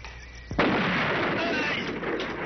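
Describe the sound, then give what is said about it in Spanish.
A gunshot fired at a pit among graves in a drama scene: one sharp, loud blast after a quiet lead-in, followed by a sustained rushing roar that lingers to the end. “Se acerca a la fosa. Le dispara a Calimán.”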